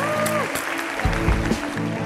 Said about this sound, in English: And a round of applause. Another round of applause.